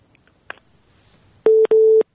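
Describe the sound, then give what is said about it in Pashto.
Telephone busy tone after a caller's line cuts out, two steady mid-pitched tones of similar length in quick succession, preceded by a faint click in near silence. “لکه چې ټلیفون یې قطع شو”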